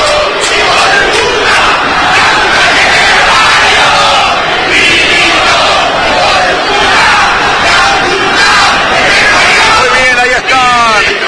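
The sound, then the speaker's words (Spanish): Loud, continuous roar of Racing Club football supporters after their team's loss, an angry, dense mass of voices that stays at a steady level without a break. “sin proponérselo se queda con un triunfo infartante, tremendo, ante la desesperanza, la bronca, la impotencia de los hinchas de Racing. Escuchen el público de Racing.”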